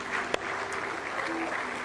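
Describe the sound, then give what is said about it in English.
Church audience clapping in praise during an evening service, a steady, even patter of many hands that fills the whole moment without a break. “Clap of praise tonight.”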